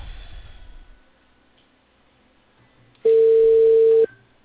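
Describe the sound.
A single steady telephone tone, about one second long, sounds as a call is placed to a cable company about a reported fault. It follows a quiet stretch and stands alone without speech.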